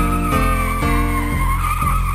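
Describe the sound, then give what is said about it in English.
A hearse's tires squeal in a loud, sustained, high-pitched screech that stays steady, with a few evenly spaced pulses running through it. “a hearse with its wheels a-squealing”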